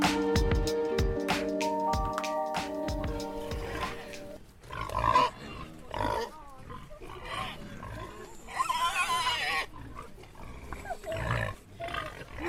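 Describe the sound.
Wild boar grunting: after a few seconds of music, a series of rough, noisy grunts and snorts follows in irregular bursts of moderate loudness.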